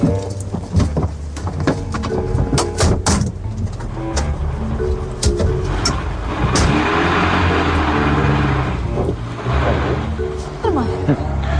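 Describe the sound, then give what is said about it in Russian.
A car carrying a girl and her driver pulls away, its steady engine hum running beneath people talking. “Так, Лида, марш в машину. Шофер ждет. Поехали.”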